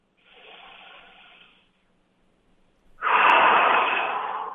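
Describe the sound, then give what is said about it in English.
A deep breath demonstrated by one person: a long, soft inhale, a short silent pause, then a louder, fuller exhale that slowly trails off. “I'll demonstrate a deep breath right now. It goes like this.”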